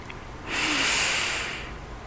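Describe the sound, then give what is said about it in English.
A single deep breath drawn in: one smooth, breathy rush of air that swells and lasts just over a second, then fades into a quiet background, with no voices. “Take one more deep breath in”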